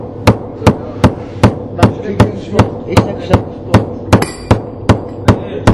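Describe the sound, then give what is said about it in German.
Sharp, ringing hammer blows in a loud university metalworking workshop, many strikes repeating at an even pace of two to three per second over a low background hum, with no talk. “Ich bin der Aria und ich mache mein Praktikum an einer metallverarbeitenden Werkstatt der TU. Und man hört, es ist ziemlich laut.”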